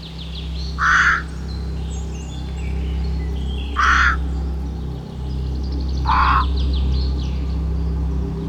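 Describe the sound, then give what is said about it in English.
Three harsh caws from a bedraggled crow perched in an old beech tree, spaced a few seconds apart and rising clearly above a steady low hum. “In the branches of the old beech tree, unnoticed by the denizens of Mousewood and their guests, sat a bedraggled crow.”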